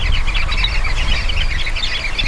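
A flock of sociable birds chatters in many overlapping chirps and twitters, forming a busy, continuous, fairly loud babble over a steady low rumble.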